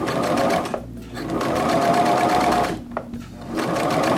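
Sewing machine stitching in reverse, its motor whirring steadily with a rapid needle chatter, briefly dropping out twice before resuming at an even, moderate level.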